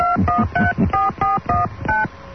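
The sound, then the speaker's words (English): Touch-tone telephone keypad dialing a number: a quick run of short, clear two-note beeps with brief gaps between them, loud and alone. “I got a number for ABC Public Affairs. Let me give them a call.”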